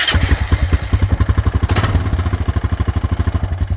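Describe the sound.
An off-road ATV or dirt bike engine catches and settles into a rapid, even, low chugging idle, with a brief rougher burst near the start.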